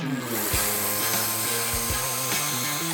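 A cordless screwdriver drives screws with a steady, continuous whirring motor whine that shifts pitch a few times as it works.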